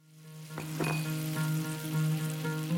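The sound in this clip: Oil fries in a pan during a cooking scene in a kitchen where Middle Eastern food is being prepared. The sizzling hiss is faint and steady, with a constant low hum beneath it and no voices.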